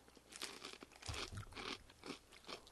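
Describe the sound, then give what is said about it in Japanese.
Spicy mentaiko-flavored peanut snack being bitten and chewed: many crisp, irregular crunches in quick succession, faint and unaccompanied by speech. “じゃあちょっと明太ピーから食べましょう。 油断してた。こんな辛いの。 じゃあどうもいただきます。明太ピー。”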